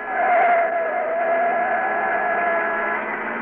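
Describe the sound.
A car engine drones steadily while driving fast at around 70 to 75 mph, a sustained roar with a constant pitch and even loudness throughout.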